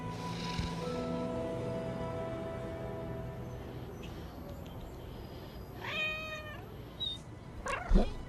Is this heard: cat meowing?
yes